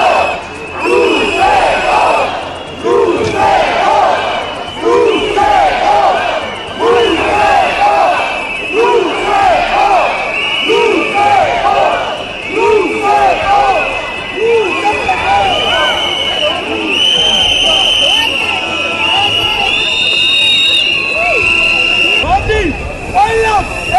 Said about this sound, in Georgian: მოგვისმინოთ შეძახილები აქციიდან, რომლის ფონზეც დეპუტატებს პარლამენტში შესვლა მოუწიათ.